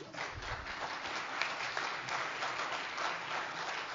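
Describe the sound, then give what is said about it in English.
Audience applause rises at a Make-A-Wish charity hike celebration after the year's fundraising total is announced. A steady, even wash of many hands clapping continues throughout. “that applause was for God because he's running the show.”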